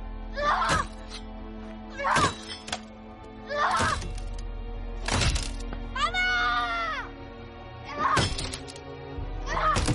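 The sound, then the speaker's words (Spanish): An axe hacks at a door in a series of heavy, evenly spaced blows, each a sharp splintering thwack that rings out alone, with a short pause between the strikes. “Coge un hacha del corral. Golpea la puerta con el hacha.”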